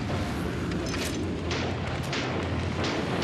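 A warship's guns all firing together at attacking torpedo bombers after the ship turns broadside, a dense, loud, unbroken roar of booming blasts and bursts throughout.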